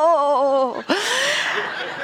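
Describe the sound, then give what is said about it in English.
A man vocally imitates a huge groaning noise: a low, wavering voiced tone, a brief break, then a louder, rougher drawn-out groan. “And he would make this huge groaning noise like,”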